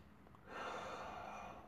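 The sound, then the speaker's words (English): A soft deep breath, quiet and breathy, drawn in a single sustained stream after a brief hush and lasting just over a second. “whenever I get angry, you know, I just like to think about something that makes me happy, and then take a deep breath”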